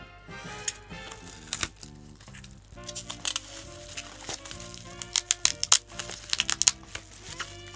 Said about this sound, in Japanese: 今プチプチを剥がしています。その中に本が入っております。